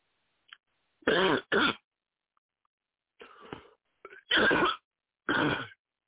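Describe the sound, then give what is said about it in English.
A person coughs in short, harsh bursts with no talk: a quick pair of loud coughs, a pause, a softer raspy throat-clearing sound, then two more loud coughs spaced apart. “I've been coughing, so I apologize for the cough.”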